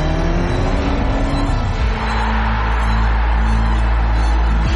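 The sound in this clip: An Audi car engine revs in a loud, sustained, rough roar with a deep rumble that shifts tone partway through and holds steady to the end.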